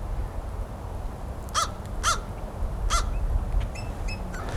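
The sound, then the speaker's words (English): An American crow caws three loud, harsh times in Woodland Lake Park, Pine Top, Arizona. Fainter, higher calls follow over a low, steady background rumble. “Pine Top, Woodland Lake Park, Navajo County, Arizona, U.S., American Crow.”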